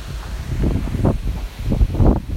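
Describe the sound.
Wind moves through leafy trees in a gusty rustle and low rumble that swell and fade in several uneven surges, with some buffeting on the microphone.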